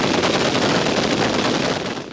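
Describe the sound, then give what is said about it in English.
Gunfire from a military night-firing exercise with tracers and illumination rounds: a dense, continuous barrage of rapid shots, loud and unbroken, easing slightly at the very end. “On my command. Fire!”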